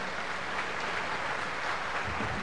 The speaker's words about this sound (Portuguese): Então uma salva de palmas para todos que vêm rezar conosco.